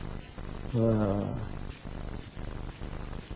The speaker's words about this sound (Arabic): ومش هيقدر على الحيوان الافريقي الفظيع القطة الأفريقية الشرسة دي.